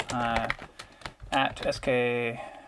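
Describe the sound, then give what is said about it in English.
Sharp clicks of typing on a computer keyboard come in short bursts as a name is entered, mixed with a voice and tonal sounds that partly mask the keystrokes. “So, I don't want to cut off this adventure that we're having. I'm going to type to Skelly of the Seven Stars,”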